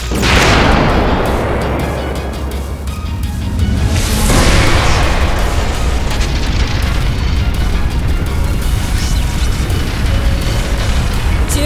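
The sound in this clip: A gravity-impact magic blast fires as a loud, dense roaring rush of noise. Sweeping surges come at the start and again near the middle, then settle into a sustained heavy rumble with no voices.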